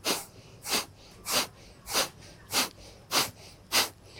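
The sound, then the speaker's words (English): Kapalabhati yoga breathing: seven sharp, forceful nasal exhalations in a steady, evenly spaced rhythm, each a brief hissing puff with quiet pauses between and no talking. “We exhale out completely. And then we breathe in about a third of the way. And we start Kapalabhati.”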